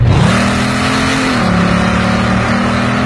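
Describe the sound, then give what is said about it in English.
A gas-powered Bugatti Chiron accelerates hard toward 60 mph with a loud, continuous engine roar. Its pitch climbs quickly, dips at a gear change and then keeps pulling. “That's the sound of a gas-powered Bugatti Chiron accelerating to 60 miles per hour.”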